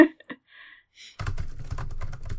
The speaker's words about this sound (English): you said the word war, but you typed like 30 characters